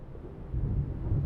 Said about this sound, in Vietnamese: Một đêm mưa lớn, trong tiếng gió gào ngoài sân